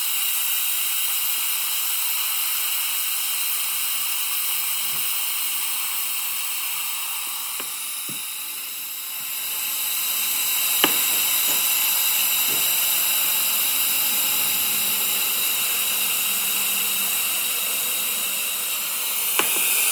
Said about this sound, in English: And the pressure is coming down gradually. Sounds like it's just about done.